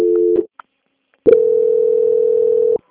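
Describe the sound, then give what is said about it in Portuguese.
A telephone tone sounds while a bank call is being transferred: a short steady single-pitch beep, a brief click, then a longer sustained tone at the same pitch that stops abruptly. “Então, eu te desejo uma boa tarde e vou transferir sua ligação. Obrigada. Por nada. Transferência.”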